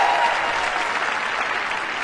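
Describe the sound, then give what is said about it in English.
A church audience claps loudly, a dense, steady wash of many hands that holds at an even level throughout and fades only slightly toward the end. “I want a better clapping than that right there.”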